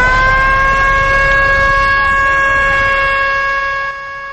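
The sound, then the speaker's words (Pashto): A siren sounds from ambulances arriving after a bombing in Kandahar: a loud, steady, unbroken tone with no clear wail, holding throughout and dropping slightly in level near the end. “تر پیښه وروسته سیمې ته د امبولانسونو تګ او راتګ پیل شو.”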